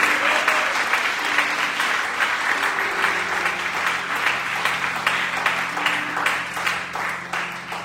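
An audience at a church service applauds in dense, continuous clapping that holds steady and fairly loud throughout, easing slightly at the very end.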